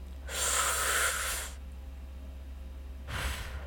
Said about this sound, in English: So take a deep breath with me.